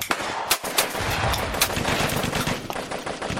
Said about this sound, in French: Les bruits de grenades, d'artillerie, d'armes automatiques se rapprochent.